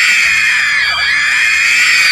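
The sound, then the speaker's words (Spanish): A crowd of women at a political rally scream and cheer in a loud, sustained, high-pitched chorus that holds steady without pause for the whole stretch. “¿de dónde se han traído estas gritonas, ah?”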